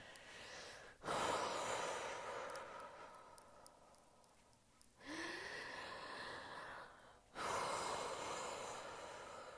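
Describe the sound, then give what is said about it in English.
Controlled breathing while running, long forceful inhales and exhales drawn through the mouth, a few broad airy rushes that follow one another with brief pauses, fairly faint and alone with no talk. “Can you hear that? So it's long inhale, long exhale. Forcefully, but calmly and controlled.”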